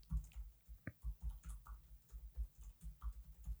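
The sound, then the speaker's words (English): Soft keyboard typing as a stand-up joke is jotted down: many quiet, irregular taps and clicks, fairly faint and alone. “Sorry, I had to write down the stand-up joke that popped up during our last little bit.”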